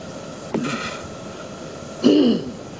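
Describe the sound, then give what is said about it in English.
Throat clearing: two short, rough rasps with a quiet pause between them, the second louder and longer than the first. “And clearing my throat, it even took my voice.”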